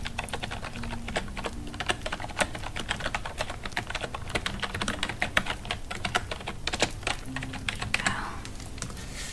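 Steady typing on a computer keyboard during a hotel check-in as a guest's details are entered, with many quick, soft keystrokes clattering in an even stream for the whole stretch.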